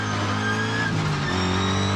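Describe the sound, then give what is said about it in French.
A car engine roars as the car accelerates hard in third gear and slides into a drift on loose dirt, without ABS. The engine gives a loud, steady, dense drone for two seconds, with a slight pitch wobble midway. “j'accélère, la caisse part en drift direct.”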